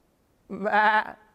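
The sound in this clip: A human voice imitating a sheep's bleat: one short, nasal, wavering bleat that starts abruptly, holds loudly for about half a second, then trails off.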